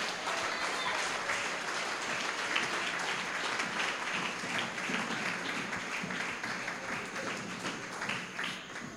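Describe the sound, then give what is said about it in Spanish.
A church audience applauds, a dense, steady wash of many hands clapping that holds at an even level for the whole stretch, with no voices standing out. “Dale un aplauso al Señor.”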